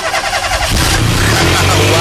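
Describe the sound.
A car engine starts with the bonnet open: a broad whirring turns over, then catches into a loud, steady, dense engine roar that holds to the end.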